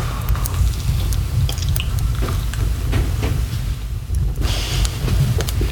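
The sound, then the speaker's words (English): Mouth noises of someone chewing a snack made with chia seeds, flaxseed meal and mini chocolate chips. Soft wet squishing and small clicks run continuously, with no talking. “The mouth noises are intense right now”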